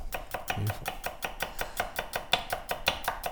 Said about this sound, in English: I could listen to you cut onions all day long.